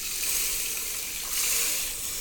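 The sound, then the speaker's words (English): Eight cups of vegetable stock pour into a soup pot holding rice and dandelion greens, a steady, faint, hissing rush of liquid that swells slightly midway. “And we're going to add all 8 cups of our vegetable stock.”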